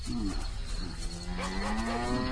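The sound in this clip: Cattle mooing on a farm with eighteen cows, with several low, drawn-out moos overlapping. One long, steady moo carries through the second half over a constant farmyard background, with no talk.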